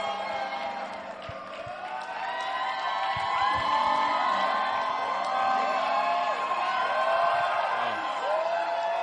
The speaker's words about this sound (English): Put your hands together for a powerful testimony.